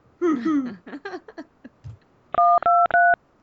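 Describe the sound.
Telephone keypad tones dialing a number to call for tickets: a quick run of four loud, bright beeps that follows a brief stretch of voice.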